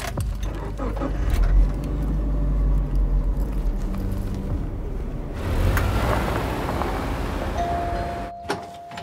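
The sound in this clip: A car drives off, its engine giving a steady, loud low rumble that shifts in character about halfway through, with a brief high tone near the end and no voices.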